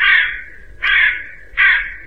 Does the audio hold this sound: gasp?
no

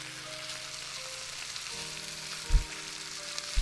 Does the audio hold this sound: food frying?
yes

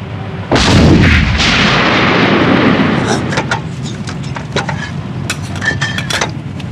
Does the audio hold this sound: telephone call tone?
no

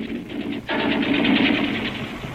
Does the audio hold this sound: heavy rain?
no

